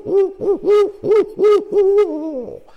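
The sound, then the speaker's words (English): Barred owl hooting call: a loud, rhythmic run of low, harmonic hoots that ends in a longer, drawn-out note sliding down in pitch. The call stands alone with no voices. “if you get barred owls responding, without a doubt, because they're hooting and hooting and hooting.”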